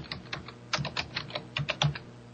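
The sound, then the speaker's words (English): Search terms typed on a computer keyboard: quiet, quick clusters of light key clicks in an irregular rhythm, with no talking. “And I'm getting ready to just type this in here.”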